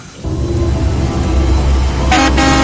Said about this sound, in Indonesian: aku dikagetkan dengan klakson bis. Itu dia tuh bisnya datang juga.